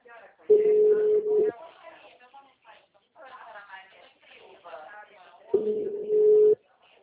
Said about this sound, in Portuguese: A ligação ficou ruim, caiu a ligação, perdão.